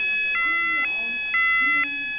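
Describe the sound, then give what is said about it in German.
A fire-engine-style siren on a vehicle built by a youth fire brigade gives a steady, high, multi-toned wail. Four regular pulsing beats come about half a second apart, with voices talking faintly underneath. “Das ist dann so richtig so eine Sirene, wie man es auch von der richtigen Feuerwehr kennt.”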